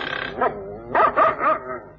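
Dogs bark in a short series of sharp, fairly loud barks, with a quieter yip or whine between the first bark and the later ones.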